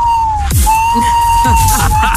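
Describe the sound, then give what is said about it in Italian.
An electronic siren-like sound effect resembling submarine sonar: a steady, sustained high tone that holds almost throughout, with a short break near the start, over some faint other sounds. “Sembrava più un sonar. Sirena. Sì, i sonar dei sommergibili”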